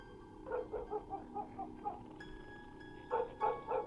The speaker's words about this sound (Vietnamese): Tiếng gió, tiếng sóng vỗ bờ từ đằng xa xen lẫn vào cái tiếng chó cắn ma cứ nhấm nha nhấm nhằng, đã buồn lại còn rát ruột.